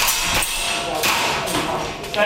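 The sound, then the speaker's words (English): Air guns fire at targets in a basement, a few sharp, thudding pops about half a second apart over a busy, noisy background. “In the Taipei basement, a dozen civilians fire air guns at targets.”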